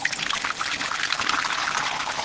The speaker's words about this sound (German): So, und jetzt läuft hier frischer Whisky.